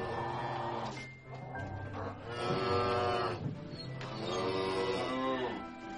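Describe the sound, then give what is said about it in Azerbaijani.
Cows moo as a herder leads the multicoloured herd to pasture, with two long, drawn-out lowing calls, fairly quiet, over soft background noise. “Yaxınlıqda çoban inəkləri otlağa aparırdı. Müxtəlif rənglərdə inəklər var idi.”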